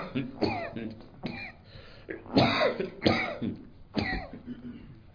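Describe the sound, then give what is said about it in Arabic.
A speaker coughs harshly several times in a row, with some throat clearing. The loud bursts are broken by short pauses. “وكأن الكحة دي بتقول لي خلص يعني.”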